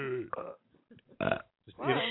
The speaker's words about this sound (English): Ewing my burps. How dare you?